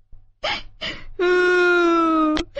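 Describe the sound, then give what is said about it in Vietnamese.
A voice imitates a toad sobbing loudly: two short gasping sobs, then a long, sustained, quavering wail that ends in a sharp catch of breath. “Cóc bỗng dưng bật khóc nức nở.”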